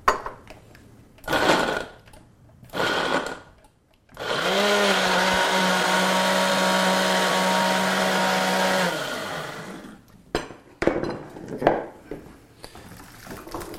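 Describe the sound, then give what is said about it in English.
A blender liquefies tomatillos, onions, green chiles and garlic with a loud, steady roaring whir for about five seconds. Brief clattering sounds come before and after it. “So you took those tomatillos, onions, green mm-hmm. chiles, and garlic, and you just blend it all up into it's basically liquefied.”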